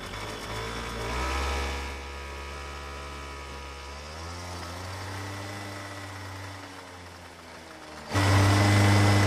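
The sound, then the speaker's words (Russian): Scooter engine as riders set off, a steady humming drone with rich harmonics that suddenly grows louder near the end. “Они садятся на скутер и уезжают.”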